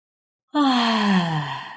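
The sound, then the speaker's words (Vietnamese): A long, drawn-out yawn from a sleepy young woman just woken in bed, a single voiced breath whose pitch sinks steadily from start to finish, heard alone. “Mùa ngáp dài, ngáp ngắn.”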